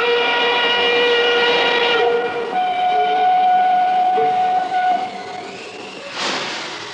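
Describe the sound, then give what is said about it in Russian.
An armoured train at a small steppe station sounds a sustained, steady whistle blast that holds for several seconds and then fades, followed by a brief second tone. “И по чистой случайности на станции Гребешки остановился бронепоезд”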